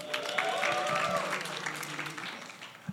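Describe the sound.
A church audience claps for Salsa, a fairly faint patter of applause with a brief cheer near the start, tapering off over a few seconds.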